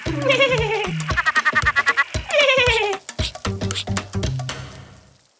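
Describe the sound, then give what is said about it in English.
A laughing northern tree frog of Australia calls with loud, rapid runs of cackling notes that slide downward in pitch. The bursts repeat several times, then fade out at the end. “Like a laughing northern tree frog.”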